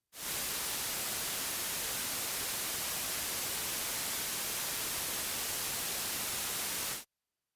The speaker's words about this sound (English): Let's listen to a sample of random noise which has energy distributed through the entire audible band from 20 Hz to 20,000 Hz.